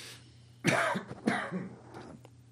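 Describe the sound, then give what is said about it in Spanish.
Two rough coughs, then a fainter third, from someone choking slightly. They come out fairly quietly over a low, steady hum. “¿Estás ahí con un poquito tos? Me ha atragantado un poquillo.”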